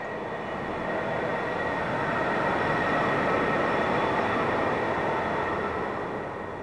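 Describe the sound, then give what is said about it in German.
Subway train running underground: a dense, continuous rumble with rattling and a faint high whine, swelling slightly through the middle and easing off at the end, with no voices. “Die U-Bahn kommt. Ich steige ein. Der Zug fährt und fährt.”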